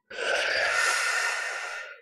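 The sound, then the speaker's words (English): A slow inhalation through the mouth, as if sucking through a straw, during a guided breathing exercise: a single steady, airy hiss lasting about two seconds that fades gently at the end. “Imagine you're drinking a lovely drink through a straw. Oh, through a straw, okay. Like this.”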